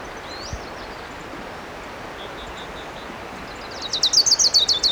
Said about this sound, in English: There's a warbler singing. It might be an orange crown.